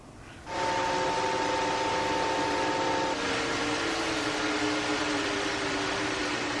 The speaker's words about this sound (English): Okay, here's an Ethernet switch.